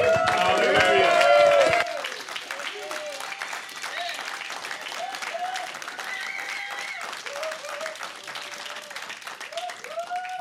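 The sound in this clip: Audience applause welcomes a speaker to the platform, a dense, steady wash of clapping lasting the whole clip. It is loudest in the first two seconds, with a voice over it there, and scattered voices later.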